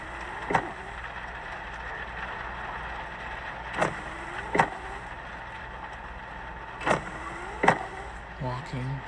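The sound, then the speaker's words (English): Car windshield wipers sweep back and forth, giving a few paired swishes with a whirring motor tone, set against a steady low hum. “Windshield wipers.”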